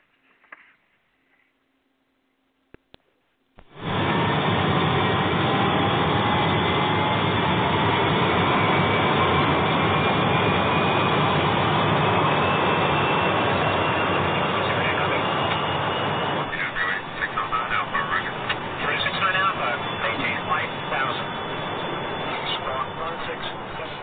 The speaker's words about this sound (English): You're cleared for takeoff, runway 9 left. Roger, Eastern 370 is on the roll.